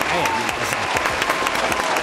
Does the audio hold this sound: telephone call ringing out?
no